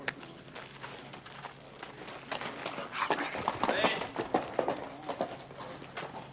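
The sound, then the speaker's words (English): A horse's hooves clip-clop as a rider comes down a street, the uneven clopping growing louder and busier after the midpoint. “That's Hoss Cartwright riding down the street.”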